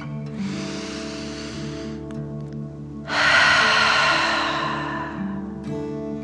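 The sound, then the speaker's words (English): Deep breathing in and out through the mouth as a calming dragon-breath exercise for children: two long, airy breaths, the second louder and rougher, over a soft, steady musical drone. “Ready? Deep breath in and out.”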